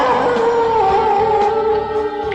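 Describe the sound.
A dog howls in one loud, sustained, tonal wail that holds a fairly steady pitch with a slight dip partway through. It continues for the whole clip with no talk.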